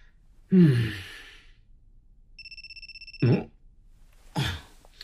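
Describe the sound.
A phone rings with a call from a withheld number, a short burst of pulsing electronic ringtone lasting about a second. Breathy sighs come before and after it.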